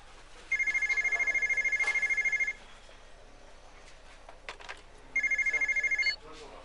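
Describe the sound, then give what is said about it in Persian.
A telephone rings in two bursts of rapid, bright trilling, a long one and then a shorter one, with people talking in between. “امید جان کار آقا رو را بنداز من تلفن دارم.”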